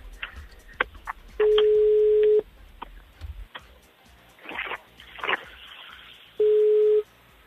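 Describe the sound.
Telephone call tones on a line: two steady, low-pitched tones, the first about a second long and the second shorter, separated by clicks and muffled noise.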